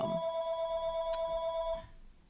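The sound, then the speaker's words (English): A telephone rings in the background with a steady electronic tone that holds for about two seconds and then cuts off, leaving only faint ambient noise. No one speaks during the ring. “Oh, we got a phone call in the background. We're going to let that go.”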